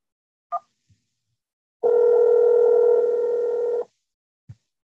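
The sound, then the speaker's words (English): A telephone keypad tone after pressing 1, a steady two-tone beep lasting about two seconds, with a few faint clicks before and after it. “If you know your party's extension, please press 1 now.”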